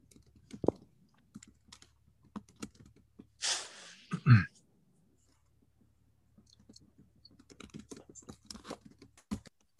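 Typing on a computer keyboard: irregular clusters of soft, dry key clicks separated by pauses, with a short breathy rush of noise near the middle.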